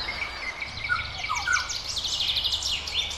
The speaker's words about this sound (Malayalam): മുറ്റത്തെ മാവിലോ പ്ലാവിലോ ഇരുന്ന് അവ മൂളിക്കൊണ്ടിരിക്കും. നൂൽമഴയുടെ നേരിയ തരുമ്പ് കൂടി ചേരുന്നതോടെ മഞ്ഞക്കിളിയുടെ പാട്ടിന് ആസ്വാദ്യതയേറും.